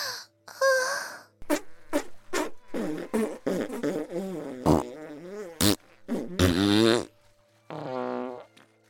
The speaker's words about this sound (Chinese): 除了一阵阵的放屁声